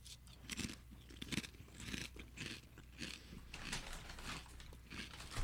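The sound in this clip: Crunching of cheese charcuterie-flavored kettle chips bitten and chewed during a taste test, many irregular crisp crunches, fairly faint and heard alone.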